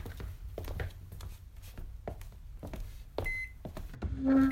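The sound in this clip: An electronic oven gives a couple of short, faint beeps while being set to preheat to 250 in a kitchen during a holiday turkey meal. Scattered clatter comes before the beeps.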